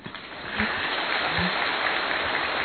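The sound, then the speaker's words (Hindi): Audience applause at a gathering: a dense, even wash of clapping that swells in after a brief quieter start and holds steady to the end. “आज आप खुल करके तालियां बजा सकते हैं”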